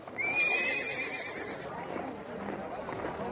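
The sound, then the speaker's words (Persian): A horse with a rider approaches, opening with a loud, high, quavering whinny, followed by clip-clopping hoofbeats under a steady wash of noise. “یک سوار به این سو می آید یا یک پیک است امانش دهید و ببینید چه خواهد”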